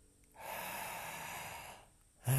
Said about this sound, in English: open the mouth slightly, close the eyes, and take a nice deep inhale into the belly.